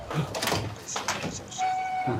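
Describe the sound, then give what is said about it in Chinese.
A door being opened, heard as a few broad clunks and scraping noises, followed by a faint steady tone near the end. “赶紧开门去。”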